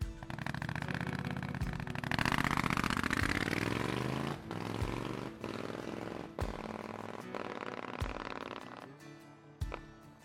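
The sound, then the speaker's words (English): A black Triumph Scrambler 900 motorcycle engine running, with a rough, throbbing exhaust note. The revs climb early, then it settles into an uneven, pulsing rumble broken by occasional sharp clicks. “I'm Jasper, and I ride a black Triumph Scrambler 900. Here's how it sounds.”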